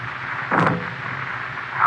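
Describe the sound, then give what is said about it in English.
A single muffled shot from a pistol fitted with a silencer in a radio drama, a short dull burst over a low steady background hum. “Here you are, Whitey. Use this silencer. Go ahead. No, don't shoot.”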